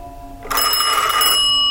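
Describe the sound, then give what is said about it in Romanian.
Telephone ringing, with a bright electronic tone that cuts in after a short silence and holds loudly for about a second. “Într-o seară din asta a sunat telefonul.”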